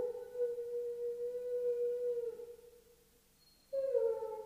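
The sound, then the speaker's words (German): A dog howls in sultry, muggy weather: a long, sustained mid-pitched howl that sags slightly as it fades. After a short lull a second, louder howl begins. The sound is fairly faint overall. “Warum nur heult der Hund? Wie schwül es ist. Aus irgendeinem Grunde heulen die Hunde.”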